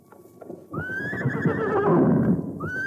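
Horses whinny loudly as a stagecoach brakes abruptly: a few hoof clops, then a long, shrill, wavering neigh over rumbling movement, and a second neigh starting at the end.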